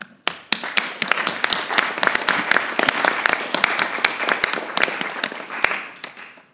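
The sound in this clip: Applause confirms the adoption of a pan-European master plan by acclamation at a meeting of member states. Dense, steady clapping from a crowd runs for about six seconds and thins out at the end.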